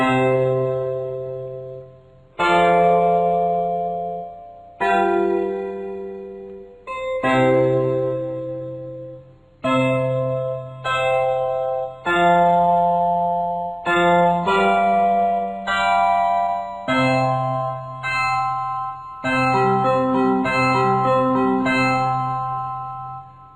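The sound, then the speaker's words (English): A simple chord progression played in equal-tempered tuning: many sustained chords with a bright, ringing, bell-like timbre, each struck and held before the next follows. The chords are steady, fairly loud and heard without voices. “Let's hear a simple chord progression in the false, tempered tuning.”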